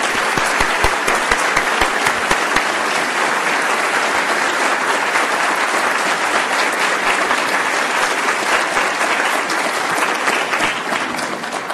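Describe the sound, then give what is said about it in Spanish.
Audience applause at an academic anniversary ceremony: loud, dense clapping that holds steady throughout and eases slightly at the very end. “Demos un fuerte aplauso al doctor Rudomín.”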